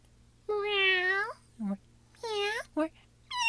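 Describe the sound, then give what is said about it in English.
A human voice imitates a cat meowing, producing drawn-out, wavering meow calls that differ in length and shape, with short, lower yelps between them and another meow starting at the end. “cats don't just make the same sound over and over. They vary. Sometimes they go,”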